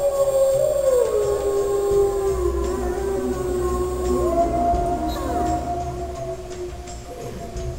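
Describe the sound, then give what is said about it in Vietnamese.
A long howl carried on strong wind high in the sky: sustained, wavering tones that dip and later rise in pitch over a steady windy rush, loud throughout with no talk. “Mấy phút sau, cơn gió lồng lộng trên không trung mang tiếng hú của Trắc Mộc Cường Ba đi đến một nơi rất xa.”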